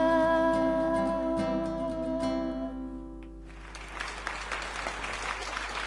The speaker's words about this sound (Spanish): Impresionante la ovación para las turucletas que están acá en La Mosquitera con nosotros.